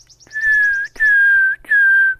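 A wood warbler gives its long warning whistle near its nest: three clear, slightly falling whistled notes in steady succession, with a run of faint, higher chirps over the first note.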